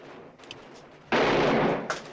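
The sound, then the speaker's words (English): Gunfire in a film scene: after a quiet stretch, a loud, sustained blast erupts, followed by a shorter, sharper shot near the end. “Chris shoots him. Diego staggers back against a rifle rack, and Chris shoots him again. Diego slumps dead against an armchair.”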